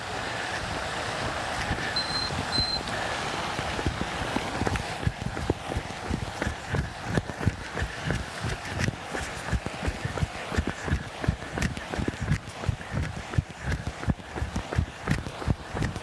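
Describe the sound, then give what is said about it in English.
A fountain in a lake gives a steady, soft splashing hiss in the background, joined after a few seconds by continuous rhythmic running footsteps that stay louder. “Probably hear the fountain in the background. It's in the lake.”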